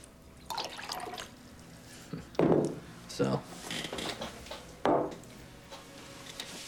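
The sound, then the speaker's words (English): Two drinks being poured: a few short, splashy bursts of liquid with drips between them, fairly faint and separated by quiet pauses. “Now Albright is pouring them both a drink.”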